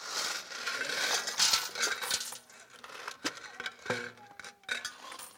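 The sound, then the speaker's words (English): Coins being dumped into a can make a faint, continuous shower of metallic clinks and jingles, with many small overlapping strikes and a few brighter rattles near the end. “let's dump the money in the can.”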